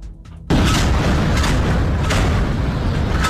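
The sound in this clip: Live naval gunfire by the Colombian Navy during the UNITAS multinational exercise in Peruvian Pacific waters: a single loud blast bursts in after a short quiet moment, followed by a heavy, sustained rumble.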